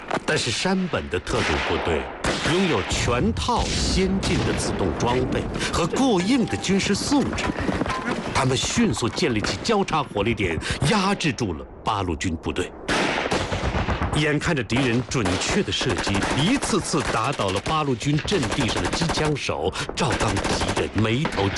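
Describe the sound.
Automatic-weapon gunfire in a battle between Japanese special forces and Eighth Route Army troops, a dense, continuous, loud rattle of rapid machine-gun bursts lasting throughout, with voices mixed into the din.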